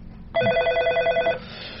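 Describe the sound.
A telephone bell rings in a radio comedy, one loud, rapidly trilling burst lasting about a second before it cuts off and leaves quiet.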